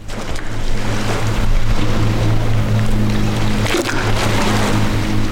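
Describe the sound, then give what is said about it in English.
River water washes against the rocky edge of a World War II-era dam on the Notley River in North Georgia, a steady, loud churning wash over a low, constant drone. “And you're hearing the Notley River brushing up against the dam's rocky edge.”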